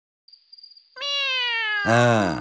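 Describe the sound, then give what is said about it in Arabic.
A hungry cat meows in a long, loud, arching call, which comes after a thin high whistle and a steady buzzing tone. “تذكرت القط، يبدو أنك جائع جداً، أكلت السمكة معظمها.”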